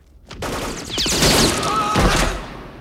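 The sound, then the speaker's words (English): Gunshots ring out in the film RoboCop, with a few sharp, loud blasts and heavy thuds fired in quick succession. “A man on the landing's got him in the sights of his gun, but RoboCop shoots him straight through his telescopic lens, and the bullet goes into his eye.”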